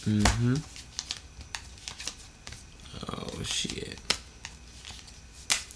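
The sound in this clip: Tarot cards are cut by hand, the deck split to the left with the left hand: dry papery rustles and shuffling with several sharp clicks and slaps, after a brief vocal sound at the start.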